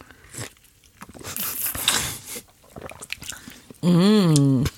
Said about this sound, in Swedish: Vi måste ju blanda på något vis. Och träsked. Så här har vi alltså dubbel espresso, is och mjölk.